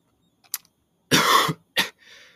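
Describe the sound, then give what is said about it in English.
A person with a cold coughs in a few harsh, noisy bursts. A long rough cough is followed by a shorter one and a softer trailing breath, with no talking. “sorry if I keep coughing. I have a bit of a cold.”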